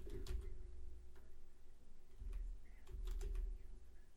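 Faint typing on a computer keyboard: a few sparse, soft clicking keystrokes spread unevenly over a low, steady background hum.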